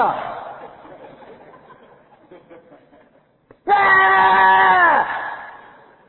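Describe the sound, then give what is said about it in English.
A voice acts out a wailing tantrum, starting with a loud falling wail that fades to quiet moaning, then breaking into a loud sustained scream after a brief pause. “Why are you keeping me awake? You used to do things. Why aren't you doing it now? Let's have a little tantrum.”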